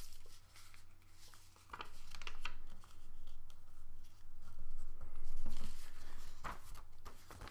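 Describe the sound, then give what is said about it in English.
Paper is folded to form a box, giving soft crinkles, creases and brushing rustles in quiet, irregular bursts, with a few sharper crisp snaps of the sheet between gentler handling sounds. “And now you get to decide how deep you want your box to be. And let me just show you an example. So fold it like this.”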